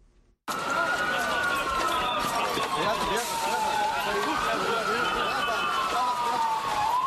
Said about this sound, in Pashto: دا د هغه امبولانسونو ژغونه دی چې د غازیانتاب په سیمه کې زخمیان روغتونونو ته انتقالوي.